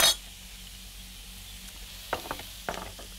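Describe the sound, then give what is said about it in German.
Onions fry in clarified butter in a pan, a soft steady sizzling hiss broken by a few brief clicks and scrapes. “Die Zwiebel lasse ich jetzt auch gut Farbe nehmen.”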